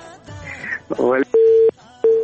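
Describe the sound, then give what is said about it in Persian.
Telephone busy tone after a radio call-in line disconnects: two flat, steady mid-pitched beeps separated by a short gap, following a brief stretch of voice. “تماس قطع شو”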